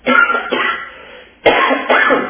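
Harsh coughing and throat clearing from a person with dust and pollen in the lungs. There are several rough bursts in close succession, loud, with no talk over them.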